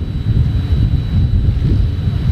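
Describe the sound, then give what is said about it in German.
Biting cold midday wind blows around three tall wind turbines whose three-bladed rotors turn slowly. It makes a loud, low, buffeting rumble that gusts unevenly throughout, with a faint thin steady tone above. “3 hohe Türme, oben mit je 3 Rotorenblätter. Die drehen heute Mittag im bissig kalten Wind, aber eher gemächlich rundum.”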